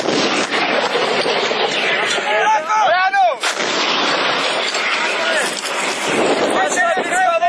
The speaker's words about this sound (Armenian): Ադրբեջանական կողմը նաև հրետանի, ուղաթիրներ, տանկեր և մի շարք այլ զինտեխնիկա, Սմերջ Տոս 1 օգտագործեց։ Պաշտպանության բանակը պատասխանեց կրակով. Կրակով!